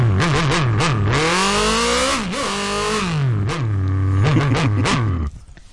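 Ducati motorcycle engine revving as a sound effect: loud, continuous throttle blips whose pitch climbs and falls again and again for about five seconds before cutting off abruptly.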